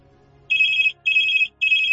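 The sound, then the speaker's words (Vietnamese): A telephone rings with three loud bursts of bright, high electronic tone. Each burst lasts about half a second, with short gaps between them, over a faint low hum and no voices. “Điện thoại vang lên đúng thời gian đã dự đoán.”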